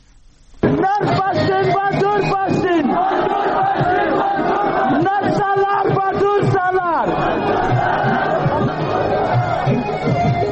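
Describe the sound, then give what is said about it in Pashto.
Massed slogan chanting at a Pashtun Tahafuz Movement rally in Rustam Bazaar, Wana, South Waziristan: loud, rhythmic shouts from many voices start abruptly and continue steadily, shifting to a different chant about two-thirds of the way through. “دا جاغونه د پښتون ژغورنې غورزنګ د هغې جلسې دي چې 13 ورځ په 9 اپریل د سویلي وزیرستان واڼه رستم بازار کښې په میرزا عالم پمپ بنه وشوه”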